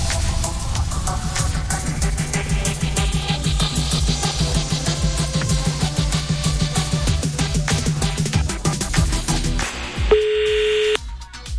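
Ringback tone of an outgoing telephone call: a single steady electronic tone lasting about a second sounds at the end, right after loud music stops.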